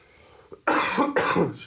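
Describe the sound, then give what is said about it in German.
Coughing from a person who has been ill that week: two loud, harsh bursts in quick succession after a faint catch of breath, with no speech. “Jetzt bin ich hier am Husten, ja.”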